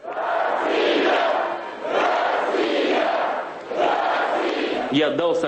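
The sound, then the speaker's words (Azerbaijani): Loud crowd noise greets the president after an opening concert at a Moscow stadium. A dense roar of many voices rises and falls in three long swells, each lasting under two seconds. “Amma açılış konsertindən sonra izdihamın prezidenti qarşıladığı gürültülü alqışlar bayırda da aydın eşidilirdi.”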